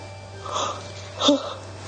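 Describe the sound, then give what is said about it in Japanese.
A person yawning while looking something up in a dictionary, heard as two short voiced, breathy swells about a second apart, over a steady low hum. “すいません、あくびが出ちゃった”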